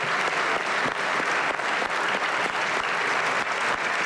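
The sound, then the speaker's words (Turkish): Standing applause from a party group of lawmakers in a parliament chamber: dense, continuous clapping that stays loud and even throughout, with no break or pause. “AK Parti grubu ise Erdoğan'ı uzun süre ayakta alkışladı.”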